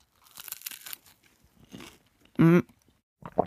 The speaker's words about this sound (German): Aber vorher muss ich mal schnell in mein Brötchen beißen.